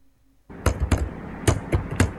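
Typing on a computer keyboard in a small house at the foot of a mountain in Tà Điệp village, Gia Lai, Vietnam: five sharp, clicky taps at uneven intervals over a low, steady background.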